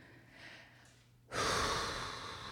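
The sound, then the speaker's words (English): A long, audible exhale of breath: soft, airy noise that starts faint, then swells abruptly and holds steady to the end. It is heard alone, with no talk. “long exhale.”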